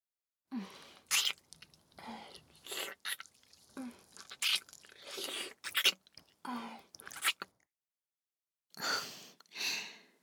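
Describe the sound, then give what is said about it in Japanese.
Soft, wet licking sounds made close to the mouth, many short moist bursts in an irregular rhythm, quiet overall, with a pause before two final licks. “そう、舐めてあげるよ。ほら、今から。”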